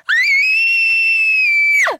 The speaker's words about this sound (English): if I'm, like, so startled by something that I realize is happening and I can't stop it, the scream would kind of be like,